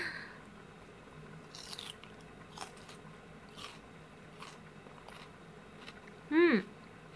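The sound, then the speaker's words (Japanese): Raw, undressed cabbage is bitten and chewed in a few faint, crisp crunches spaced irregularly over several seconds. A brief voiced sound rises near the end. “キャベツ多いね、これね。ちょっと食べる？ほら食べてみて、そのまんまだけど。”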